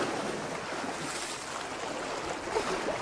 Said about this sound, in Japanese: ほら、もう一回行くわよ。お水シャワーシュワシュワシュワシュ